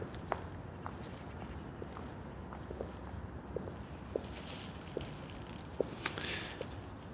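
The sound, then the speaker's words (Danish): Footsteps walking along the quay at Islands Brygge: a steady series of faint, soft steps at an even walking pace, heard over a constant background hum. “Jeg går på kajen på Islands Brygge. der er kun få andre, der går lige her.”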